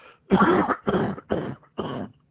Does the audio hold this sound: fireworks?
no

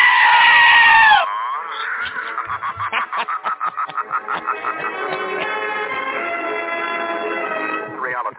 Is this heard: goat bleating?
yes

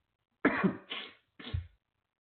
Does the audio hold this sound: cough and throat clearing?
yes

